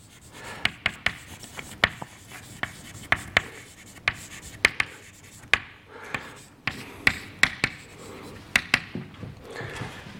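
Writing out an equation during a physics lecture, heard as many sharp, irregular taps and short scratches at a quiet level, with no talk over them.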